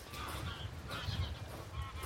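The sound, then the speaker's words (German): A large flock of geese flying overhead on the Baltic coast honks faintly, with many overlapping calls over a steady, soft rushing background. “Wir jagen gerade eine große Gruppe Gänse hoch, die genau über uns rüber wollen und dann merken, dass wir hier sind und da abdrehen.”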